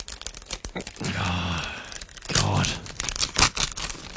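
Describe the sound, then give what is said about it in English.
A paper envelope being torn open, with sharp ripping and crinkling bursts interrupted by short vocal exclamations, then more crackling rustles. “You can open up that envelope and we all find out together.”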